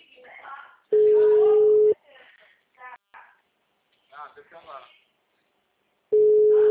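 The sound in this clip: Telephone ringback tone while a call waits to be answered: two long steady mid-pitched tones about four seconds apart, with a person speaking quietly in the pause between them.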